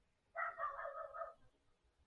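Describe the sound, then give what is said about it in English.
A newly adopted dog gives a single drawn-out cry of about one second. The voiced call is fairly faint and heard alone, with near silence before and after. “My God, my dog. That's my new dog.”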